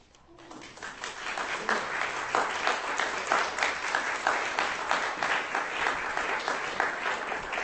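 Applause breaks out from an audience after a poetry reading, swelling quickly from near silence into a dense, steady patter of clapping that continues strongly to the end.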